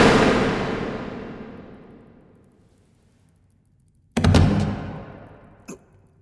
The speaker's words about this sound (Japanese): まさか初めて人を撃ったのか。